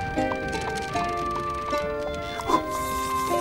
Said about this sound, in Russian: Ослик тянет за собой пустую тележку.